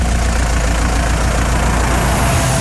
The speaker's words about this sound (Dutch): En dit is nog steeds een oude DAF die gestart wordt dus vandaag.